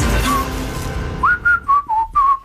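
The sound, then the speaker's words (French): A person whistles a short tune of several clear, bright notes that shift up and down in pitch. The notes come one after another after a stretch of low background sound. “T'es bon, toi t'es un siffleur, hein? T'es tellement un bon siffleur.”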